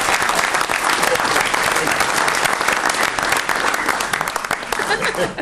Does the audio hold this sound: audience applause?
yes